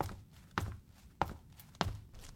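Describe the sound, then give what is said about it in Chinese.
Footsteps of a man walking into an interrogation room: a few heavy, evenly spaced steps sounding alone over low background noise. “很快，审讯室的门被推开了，一个男子走了进来。”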